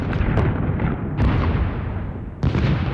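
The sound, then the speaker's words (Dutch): Heavy bombardment explosions: several deep, booming blasts, each followed by rolling low rumble that fills the gaps, keeping the sound loud and continuous. “Zo klinkt een bombardement.”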